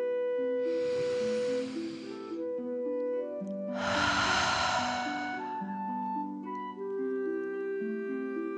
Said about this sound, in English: breathe like a dragon in and out.